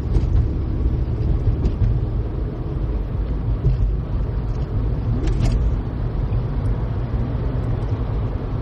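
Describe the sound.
A car drives along with a steady, loud, low road and engine rumble that holds even throughout, with no talking.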